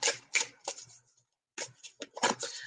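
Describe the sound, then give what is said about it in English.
Cards rustle and snap as one is pulled from a deck for a card reading. A few quick, crisp flicks are followed by a short pause and then another cluster of rapid shuffling sounds. “I am going to pull a card for you”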